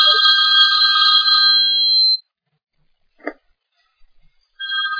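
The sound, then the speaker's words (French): A mobile phone ringtone goes off during a talk, sounding as bright electronic tones in two bursts: a long ring, a pause broken by a brief click and a few faint taps, then the ringing starts again. “C'est possible de mettre en silence vos trucs ou quoi? Je sais, ça sonne tout seul en même temps. Donc, il vaut mieux toujours quand quelqu'un passe le téléphone de mettre en silence, parce que ça peut gêner”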